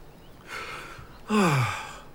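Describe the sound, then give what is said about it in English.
A deep inhale voiced for a talking taiaha, a weapon: a soft breath first, then a louder, longer gasping breath in that ends in a voiced sigh falling in pitch. “The taiaha inhales deeply.”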